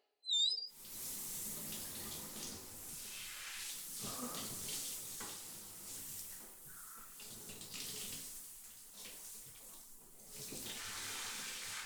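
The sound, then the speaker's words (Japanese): Running water rinsing shampoo out of someone's hair, a continuous broad splashing rush that shifts in texture as it flows for about eleven seconds. “ほら、頭、きれいに洗えたから、流しちゃうね。”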